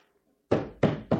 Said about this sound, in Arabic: مش معقول تكون نايمة وما تصحاش على الخبط ده. انا اذنك اخبط عليها انا.